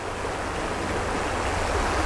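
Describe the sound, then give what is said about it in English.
Swirling water flowing underneath, a steady, full rushing wash that stays constant and fairly loud throughout, with no voices. “And it's good because there's lots of swirly water underneath.”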